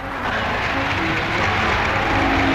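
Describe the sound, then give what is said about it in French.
An Argentine Parliament ovation for President de Gaulle: dense, sustained clapping and crowd noise that stays steady and loud throughout. “Devant le Parlement argentin qui lui fit ovation, il souligna la communauté d'idées, d'intentions et de jugements des deux pays.”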